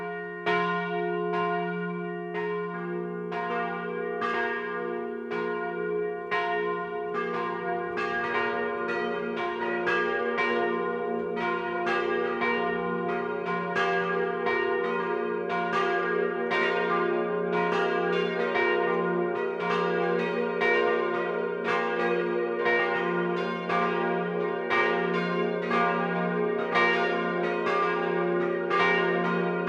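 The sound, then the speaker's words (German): Catholic parish church bells in the Swabian village of Schildberg ring the noon peal, several bells striking in a dense, overlapping, steady rhythm that rings on loudly and alone throughout. “Es ist 12 Uhr. Das Mittagsläuten kommt heute von der katholischen Pfarrkirche St. Maria Magdalena im schwäbischen Schildberg.”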